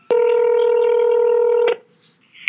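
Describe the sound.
A telephone keypad tone sounds while an extension is dialed: one steady, loud beep holds for about a second and a half, then stops with a short click. Brief faint noise follows.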